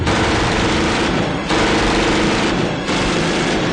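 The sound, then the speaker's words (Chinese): Heavy gunfire as mercenaries shoot at a special police squad: a loud, dense, continuous roar of shots with two brief breaks. “雇佣兵们站起来，对着特警队员猛烈射击。”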